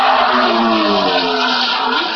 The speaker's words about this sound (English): That looks like our first classic Williams, and again, less of a smell of hot engine now, but a tremendous smell of fuel.